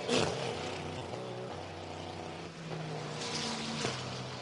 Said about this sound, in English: It's a tidy pit stop, though, as off and away the 40 go.